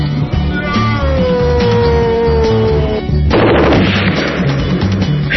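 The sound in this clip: Gunfire lands a headshot in a video game. Layered game tones and effects run continuously, then a harsh, noisy burst cuts in partway through and the dense sound carries on to the end.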